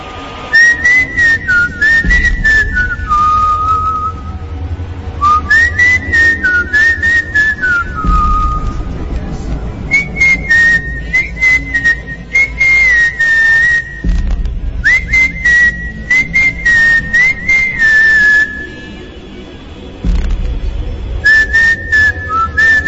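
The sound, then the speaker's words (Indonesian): Whistling of a melody along to a favourite song playing on a radio at home, in several bright, wavering phrases with short pauses between them, loud and steady over a low background hum, with no talking. “Di radio diputar lagu kesukaanku. Spontan aku pun bersiul mengikuti lagu.”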